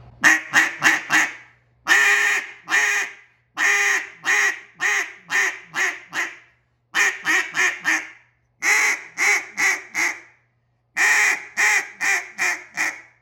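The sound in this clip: A duck call is blown to imitate quacking in a cut-down calling style: several series of rapid, raspy quacks, each series starting loudest and tapering off, separated by short pauses, with no talk.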